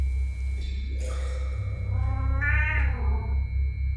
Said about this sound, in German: Die Katze ist zurückgekommen.